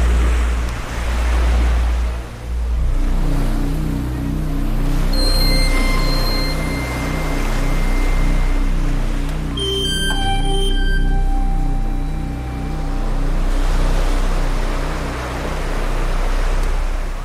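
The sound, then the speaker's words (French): Loud, continuous roar of sea waves that swells and eases in slow surges, with a steady low throbbing underneath and a few brief high tones near the middle. “Tu vois la mer qui nous bloque.”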